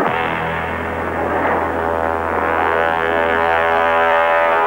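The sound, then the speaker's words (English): Aircraft engine drone at an international airport, a steady, loud, even roar with a sustained humming tone that barely changes throughout, with no voices. “This is Lynn Longstreet at Dulles International Airport catching the celebrities on the run as they come to and from our nation's capital.”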